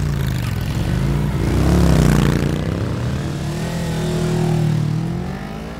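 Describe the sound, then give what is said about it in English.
A motorcycle engine starts up and peels away, its revving roar swelling twice, loud and continuous with no talk. “Vice President gets on his bike and peels off. The other two follow suit.”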